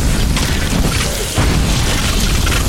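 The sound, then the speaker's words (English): A magic anomaly explodes in a video game with a loud, dense, continuous booming roar that briefly dips partway through and then surges back, heard without voices. “There's like little glowy guys. Whoa, he just exploded.”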